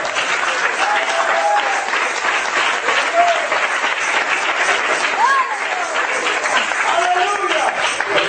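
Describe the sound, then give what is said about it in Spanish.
Hands clapping in applause from an audience during a church sermon, a sustained, dense patter at steady volume, with voices calling out over the clapping at several points. “Yo voy a aplaudir por algunos que no trajeron manos hoy esta noche.”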